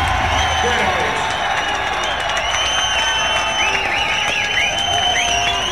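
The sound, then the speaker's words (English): An audience at a concert applauds and cheers, with steady massed clapping running throughout. High whoops and shouts ride over the top of the clapping, and the crowd noise holds loud and constant from start to finish. “this is a great audience, man. Can you give yourself a round of applause?”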